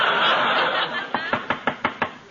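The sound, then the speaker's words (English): Six quick, evenly spaced knocks on a door by a salesman, sharp wooden raps that follow a stretch of hissy noise. “Well, what are you knocking again for?”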